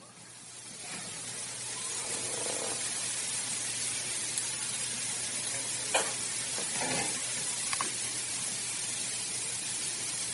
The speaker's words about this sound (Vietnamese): Quý vị xoa hai tay.